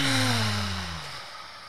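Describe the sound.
A deep breath released from the stomach after being held at the top during a breathing exercise, heard as a long, airy exhale with a faint voiced edge that falls in pitch and fades gradually.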